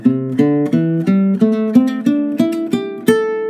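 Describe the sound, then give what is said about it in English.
An electric or acoustic guitar plays an A minor pentatonic scale, two notes per string, as ten evenly spaced plucked notes climbing steadily in pitch, clear and alone. “which is the two note per string minor pentatonic in the key of A.”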